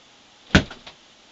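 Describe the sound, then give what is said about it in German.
A door being opened as someone walks out: one sharp wooden knock, then two softer rattling taps, alone against near silence. “Ich geh einfach durch die Tür und dann geh ich auf die Straße.”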